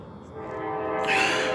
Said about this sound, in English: I want that train to shut the fuck up, Jesus Christ, we know you're coming